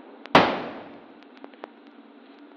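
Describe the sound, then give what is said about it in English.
A single sharp gunshot cracks out near the start, loud and abrupt, then fades in a long decaying tail. A few faint ticks follow, and no one speaks. “He's dead. You shot him in the heart.”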